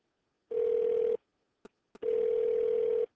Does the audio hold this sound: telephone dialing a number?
yes